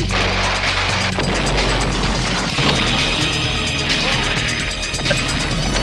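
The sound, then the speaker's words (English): A building is destroyed with a loud, continuous crashing roar, broken by a few heavier booming impacts throughout. “You just destroyed a building.”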